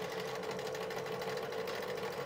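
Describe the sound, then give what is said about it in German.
A sewing machine stitching steadily during a live sew-along. It gives a faint, continuous whirring hum with fast, even pulsing and no voices. “Ich nähe jetzt hier einfach stumpf weiter.”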